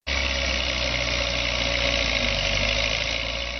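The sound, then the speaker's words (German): A yellow wheel loader's engine runs on a rubbish heap of plastic and textile waste, giving a steady, loud, unbroken mid-pitched drone with a faint vibrating rattle and no voices. “Der gelbe Radlader fährt immer wieder in den Müllberg hinein, entreißt ihm mit seiner Schaufel große Mengen eines Gemischs aus Plastik und Textilien und lädt es auf einen Lastwagen.”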